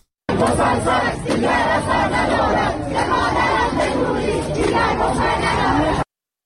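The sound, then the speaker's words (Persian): Students protesting at Babol Noshirvani University in Iran: a dense crowd shouts and chants together without a break, loud and unbroken, with no single voice standing out. “صدای دانشجویان در دانشگاه نوشیروانی بابل.”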